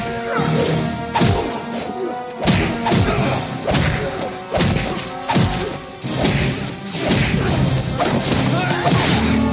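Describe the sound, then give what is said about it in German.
Staged fight sound effects: many loud punching thuds, whacks and crashes, each movement accompanied by a sharp whoosh, coming in quick irregular bursts. “Jede Bewegung wird mit einem Windrauschen begleitet. Ich fand's absolut großartig. Und das ist auch wirklich, das sollten wir an dieser Stelle am besten einfach mal kurz einspielen, damit man eine Vorstellung davon bekommt, wie bei Walker Texas Ranger sich die, ja, wie die Kämpfe klingen.”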